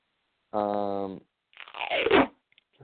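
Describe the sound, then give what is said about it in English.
Duct tape pulled off the roll: a steady, buzzing squeal as the strip unwinds, then a rougher, noisier rasp as it tears away, with a few faint ticks at the end. “Just going to duct tape something very quickly. That was duct tape.”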